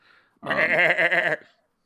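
A large goat gives a single loud, wavering bleat lasting about a second, heard alone against silence.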